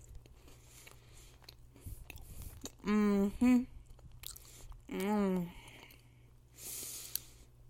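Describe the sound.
Crunchy fudge stripe cookies being chewed, a soft, continuous crunching close up, broken by a few brief voiced murmurs.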